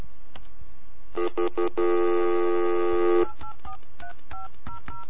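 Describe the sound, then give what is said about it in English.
Telephone keypad dialing tones while calling a mobile carrier's customer service line: short electronic beeps, then a long, steady, buzzy tone, followed by a quick series of short two-note keypad beeps, with no talking. “I dialed Alltel. I'm going to hit zero, right? Because I want a human right away.”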